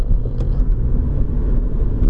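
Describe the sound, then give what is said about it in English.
Steady low rumble of road traffic along a busy parkway, a car passing in a continuous, even wash of engine and tire noise with no other sounds standing out. “Lots of traffic here.”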